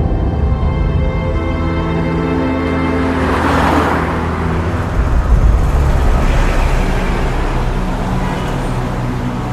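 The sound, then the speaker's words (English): A car driving along a road, heard as a continuous loud rumble of engine and road noise with low steady engine tones. It swells slightly midway and stays even otherwise. “The two drive to Wayne Manor, just outside of Gotham.”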